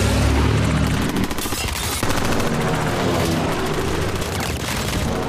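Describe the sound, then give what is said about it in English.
Bursts of gunfire from a helicopter tear into a plane as the two aircraft nearly collide. The rapid, loud fusillade of sharp impacts runs throughout over a heavy low rumble. “Rounds slam into the plane as the two aircraft nearly collide.”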